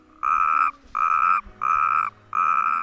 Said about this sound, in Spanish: podrás escuchar en las charcas y pequeñas lagunas cerca del pueblo distintas especies de anfibios, como la rana común o el sapo corredor.